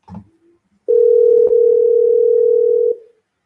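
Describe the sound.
Telephone dial tone heard while placing a call: a brief clatter, then a steady, unbroken single tone that holds for about two seconds before cutting off.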